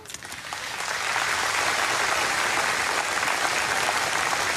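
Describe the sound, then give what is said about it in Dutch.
Audience applause at the national commemoration of the slavery past, opening softer and quickly swelling into steady, loud, sustained clapping from many hands that continues to the end. “APPLAUS.”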